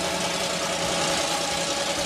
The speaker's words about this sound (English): these guys brought out the biggest monster truck in the world, and they gave me a ride back to my hotel.